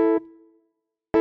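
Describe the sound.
The two lower voices of a Bach chord on keyboard: a rich chord held briefly, then thinning to a quiet two-note tail that fades out, followed by a fresh attack cut off at the very end.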